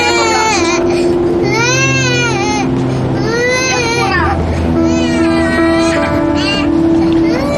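A young child cries loudly and without stopping, with wavering, high, strained wails and sobs that rise and fall across the whole stretch.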